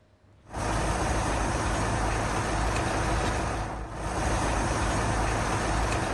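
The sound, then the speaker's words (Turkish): A heavy truck crosses a concrete bridge in Esenyurt, Istanbul, a bridge that sways under large vehicles and sheds concrete pieces. A loud, steady rumble starts abruptly after a quiet moment and dips briefly midway before surging again. “Bak, tır geçtiği zaman sallanıyor. Tır veya benzeri büyük araç geçince sallanıyor.”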